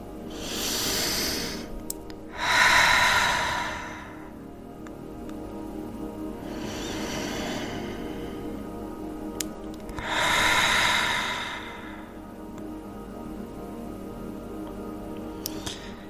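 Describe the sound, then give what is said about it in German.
Slow, deep, full breaths during a guided breathing meditation: a few soft airy swells of inhaling and exhaling that rise and fade, with long quiet stretches between them and no talk. “Nimm auch hier den Raum wahr, den du durch deinen Atem schaffst und nimm ein paar tiefe, vollständige Atemzüge.”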